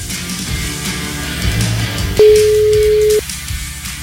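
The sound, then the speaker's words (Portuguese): Telephone ringback tone as a call goes through: one steady mid-pitched beep lasting about a second, following a stretch of low background noise. “Ai, meu Deus do céu, a gente tá ligando pra ele, viu?”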